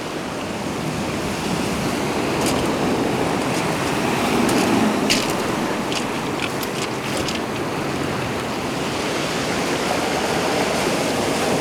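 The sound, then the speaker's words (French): Wild sea waves crash against the rocky Estérel coastline in a steady, heavy roar of surf. Scattered sharp splashes and crackles of breaking water rise briefly above the continuous wash, with no voices. “La mer sauvage qui délivre ces vagues qui claquent.”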